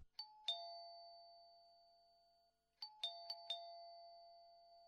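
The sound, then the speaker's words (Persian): A doorbell rings twice with a soft, clear chime. A two-note ding-dong comes first, then after a pause a quicker run of four struck tones. Each note rings out with a long, smooth decay in otherwise quiet surroundings. “او صدای زنگ شنیدی؟ آمدن حتما خودشان هستن. من میرم دروازه رو باز کنم.”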